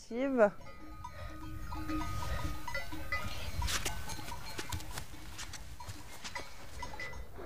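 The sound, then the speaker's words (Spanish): A herd of sheep and goats wearing cowbells in a stable high on a mountain pasture at 1500 metres: a loud bleat opens, followed by steady clinking and jangling of many bells over a constant rustling bed. “Cuando el rebaño está en el establo, termina la jornada.”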